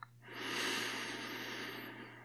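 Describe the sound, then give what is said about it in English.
A long exhale during a guided meditation: a single sustained breathy rush lasting about two seconds that slowly tapers off, over a low steady hum. “and exhale, drop into the body.”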